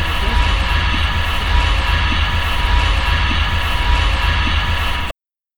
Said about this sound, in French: Ce que vous venez d'entendre, c'est le son d'un bateau de transport de personnes.